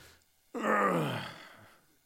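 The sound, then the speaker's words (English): A man gives a single long, low groan as he gets up from the couch or sits down to tie his shoes, rising suddenly and then slowly fading. “I'm a lot more familiar with these groans. And they're a common joke around our house whenever the kids are home. Every time I get up from the couch or sit down to tie my shoes,”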